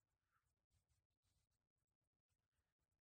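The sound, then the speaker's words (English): Old stickers being peeled off a surface, with adhesive left behind, give dry scratchy tearing rasps in many short bursts separated by brief pauses. “So I'm just pulling all the stickers off from lines past.”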